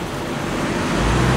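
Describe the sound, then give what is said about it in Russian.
A German motorcycle with sidecar drives past on a road, producing a steady low engine rumble that grows slightly louder toward the end, with no voices. “По дороге проезжает немецкий мотоцикл с коляской.”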